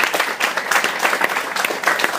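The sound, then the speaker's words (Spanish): Audience applause rises in a dense, steady burst of many hands clapping together, loud and continuous for the whole stretch without any speech over it. “Señores, me gustaría pedirles un aplauso para el buen Carmix, que en serio, gracias por venir.”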